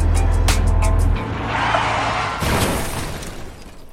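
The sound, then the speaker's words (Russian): A car engine roars under hard acceleration with the pedal pressed to the floor. A heavy, loud low rumble opens and drops off after about a second, giving way to a broad rushing noise that surges again briefly before easing. “Прыгаю за руль, педаль в пол. Гоню, как Уокер Пол. Гоню, как Усейн Болт. И на спидометре, наверное, уже 200.”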